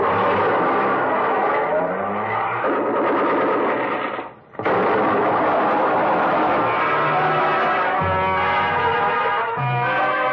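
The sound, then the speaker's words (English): A Plymouth car engine runs on the hand throttle after starting, giving a loud, rattling, continuous mechanical drone that briefly drops out midway and then resumes at full strength. “pressed the starter with the heel of my hand. I switched on the lights, pushed the clutch with my left hand, used my right to shift it into low, Then I pulled the hand throttle out all the way and let it go.”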